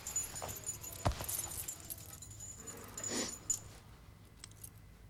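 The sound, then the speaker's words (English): Metal keys jangling as a bunch of gate and workshop keys is handed over, giving a few brief, quiet clinks and rattles over near-silence, with no talk. “Mick lets go of Dennis. He gives Ron the keys.”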